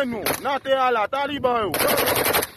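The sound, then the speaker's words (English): Rapid semi-automatic rifle fire from gang members at the international airport in Port-au-Prince, Haiti, a dense string of sharp loud cracks following loud shouting voices. “That's one of Haiti's gangs firing their semi-automatic rifles earlier this month at the Toussaint-Louverture International Airport in the capital, Port-au-Prince.”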